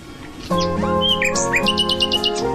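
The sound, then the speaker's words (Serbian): Nightingale song: after a brief quiet start, a loud, continuous run of bright whistled notes and chirps, ending in quick repeated high trills. “Daj da čujemo malo Slavuja, poj Slavuja. Daj, to je nešto lepo.”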